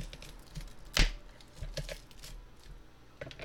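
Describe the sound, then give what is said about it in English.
A knife cuts crosswise through an onion, giving one sharp, crisp chop followed by a few softer taps and crackles spread irregularly, with no talk. “We're gonna cut the onion in a cross-sectional form.”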